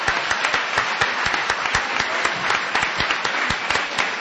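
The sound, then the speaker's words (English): An audience applauds the audience members who served as judges, steady clapping with many sharp, distinct claps standing out in a regular patter, no voices. “And how about a round of applause for our audience members who participated as judges?”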